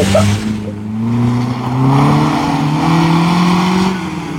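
Motorcycle engine revving as a sound effect: a loud, buzzing engine drone with clear tonal harmonics that climb gradually in pitch over several seconds, heard alone without talk.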